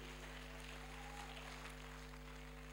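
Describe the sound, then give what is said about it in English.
Faint applause from a church audience welcoming a preacher on stage, a soft, even patter of many hands beneath a steady low electrical hum. “Then with us rising up and clapping and making some shout, let's invite him upstage”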